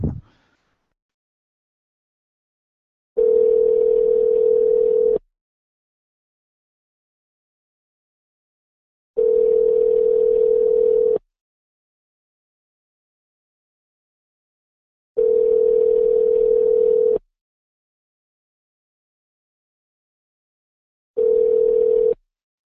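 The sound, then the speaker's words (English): Ringback tone on a returned telephone call: four steady, loud tones, each about two seconds long, separated by roughly four seconds of silence, with the last tone cut short. “Okay, I'm dialing back just to see if we can get this guy.”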